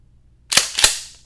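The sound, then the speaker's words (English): Two sharp metallic clacks from a short-barrel TAC-14 shotgun being racked, a quick back-and-forth pair about a third of a second apart, loud and alone, each with a brief ringing tail. “somebody just racked a shotgun and you could hear it.”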